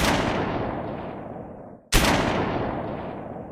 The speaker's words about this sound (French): Il s'approche de l'esclavagiste en chef, Marie de Lille Martini, sort un pistolet et tire deux fois dans sa direction.